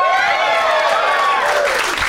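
Studio audience applause welcoming guests onto a show, loud, dense and continuous throughout the short stretch with no break.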